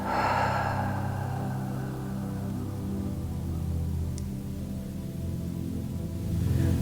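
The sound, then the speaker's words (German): A deep breath is drawn in through the nose and let out through the mouth during a guided relaxation with closed eyes. The breathy airflow sits over soft, sustained low tones in the background. “Und atme ganz tief durch die Nase ein durch den Mund wieder aus.”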